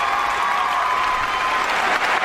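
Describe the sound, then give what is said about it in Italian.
Applause from an audience, a steady dense patter of clapping that holds evenly at a fairly loud level through the whole stretch with no voices over it. “ecco gli applausi. Complimenti, complimenti.”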